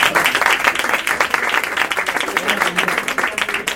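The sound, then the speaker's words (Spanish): Audience applause at a book presentation in a bookshop: dense, continuous clapping from many hands, steady and fairly loud throughout. “Un aplauso.”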